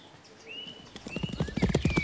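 Horse hooves clip-clop as a rider urges a horse on, a quick, steady run of many loud hoofbeats that begins after about a second and keeps an even rhythm to the end.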